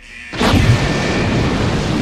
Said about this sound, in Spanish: La unidad de artificieros hizo una explosión controlada del calcetín.